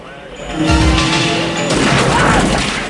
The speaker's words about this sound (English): The shotgun blast takes the driver's side door off Jim's car.